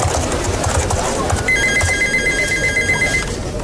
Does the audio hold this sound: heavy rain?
no